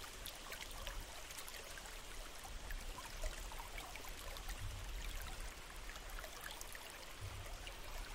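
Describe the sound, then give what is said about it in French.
Water flows and trickles in a constant, even rush, soft and hissy across the whole clip with no talking. “Concentrez toute votre attention sur les sons de l'eau, purs, simples, envoûtants.”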